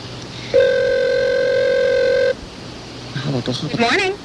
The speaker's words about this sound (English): You got to put it on the speed dialer so we can just keep dialing it, and eventually it'll get through.